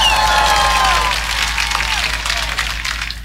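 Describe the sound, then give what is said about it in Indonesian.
Crowd applause for farmers at a local gathering, a fast, dense patter of clapping that builds under a speaking voice at the start, with a low steady hum beneath. “tepuk tangan dulu dong buat petani”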